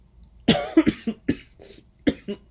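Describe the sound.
A person coughing: a quick run of short, sharp coughs in two clusters, with a brief lull between them, moderately loud and alone without talk.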